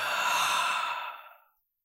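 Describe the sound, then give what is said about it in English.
A deep breath released in a single long, breathy sigh during a guided meditation, loud and steady at first, then thinning out and fading to silence after about a second and a half. “Now I want you to take a deep inhalation, release. Another deep inhalation. Release.”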